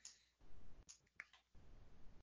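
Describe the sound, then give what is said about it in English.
Computer mouse buttons click in a software application, a few faint, sharp, isolated clicks spaced apart over a quiet background hiss. “right within OnBase, we would click our Application Creation Accelerator button, click this Import button. I can browse out to my desktop”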